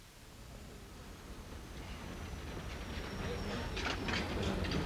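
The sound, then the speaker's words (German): Low rumble and rustle from inside a railway compartment on a moving train, a steady noisy ride that grows gradually louder toward the end, with no voices. “Ein Eisenbahnabteil.”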